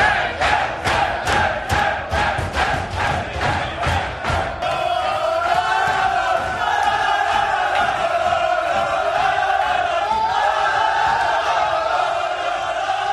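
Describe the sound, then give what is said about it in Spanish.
A football team celebrates loudly in the locker room after a 3-0 victory, beginning with several seconds of rhythmic, pulsing chanting and shouting that gives way to a sustained, dense roar of cheering voices. “Este es el sonido de la fiesta del Getafe en el vestuario después de haberle ganado 3-0 al Sevilla”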